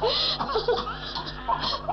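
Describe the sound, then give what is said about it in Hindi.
A hungry baby cries, loud and wavering. The wails rise and fall in pitch in a steady, unbroken stream of vocal bursts. “अरे अरे तू तो और जोर से रोने लगा, लगता है तू भूखा है।”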